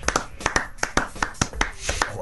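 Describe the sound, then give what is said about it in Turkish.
Hand claps ring out as a quick, irregular run of many sharp, distinct slaps, each one crisp and separate, with a voice faintly audible near the end. “Ben de yayından alkışlıyorum. Bravo. Bence senin bu lafını alkışlıyorum.”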